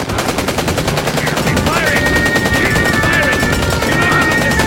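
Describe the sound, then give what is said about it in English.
Sustained machine-gunfire rattles in dense, rapid bursts, loud and unbroken, with a thin high tone running through part of it. “Open fire!”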